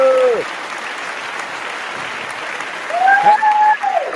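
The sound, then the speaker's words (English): Audience applause welcomes a guest onto a show, a steady wash of clapping that lasts the whole clip, with voices speaking over it at the start and near the end. “let's have a big hand for Henry Phillips.”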